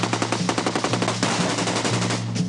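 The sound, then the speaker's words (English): An AK-47 assault rifle fires on full automatic: a fast, even run of sharp, loud reports that blurs into a denser, continuous roar of gunfire, with no voices. “This is the AK-47 assault rifle, the preferred weapon of your enemy. And it makes a distinctive sound when fired at you, so remember it.”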